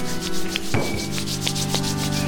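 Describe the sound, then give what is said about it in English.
Palms of hands rubbed briskly together during a relaxation exercise, a steady, loud, dry swishing friction that runs continuously for about two seconds without pause or talk. “rub your hands together like this”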